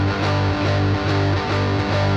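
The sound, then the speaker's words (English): A G power chord on electric guitar with heavy distortion, a thick sustained tone with a loud, steady level. The chord is re-struck several times in a regular chugging rhythm. “And then the power chord is just a G power chord. It sounds like this.”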